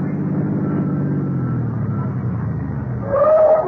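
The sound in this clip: A car engine runs as the vehicle pulls up at a street corner, its steady low drone sinking gradually in pitch. A brief higher whine rises near the end.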